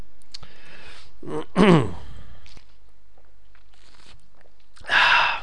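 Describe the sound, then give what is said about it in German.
Someone pausing during a live recording to take a drink: a few short wet mouth and swallowing noises separated by quiet gaps, with a brief voiced exhale early on and a louder burst at the end. “Moment, muss mal kurz was trinken.”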